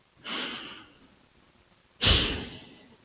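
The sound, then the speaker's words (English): A deep breath: a soft, airy intake, then after a short pause a louder, breathy release, two smooth breath sounds alone with no talk. “Now, let's take a moment and take a deep breath.”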